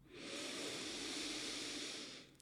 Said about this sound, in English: Let's take a big breath in.